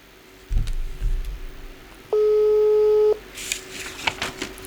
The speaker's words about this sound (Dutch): Oké, we proberen hem gewoon nog eens terug te bellen.